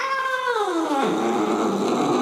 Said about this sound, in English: Boss called the shot with a mighty meow